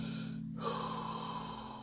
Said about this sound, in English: Just breathe in.